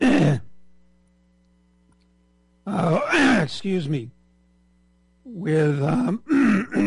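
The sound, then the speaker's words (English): A man clearing his throat in a few gravelly, voiced bursts separated by pauses of silence. “pardon me, a little frog in my throat. I have to take a sip of water.”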